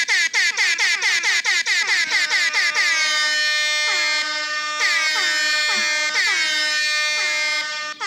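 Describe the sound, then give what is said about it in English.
Air horn sound played from a phone app: a quick string of short, blaring toots, followed by several longer sustained blasts, loud and with no other sound. “The horn app.”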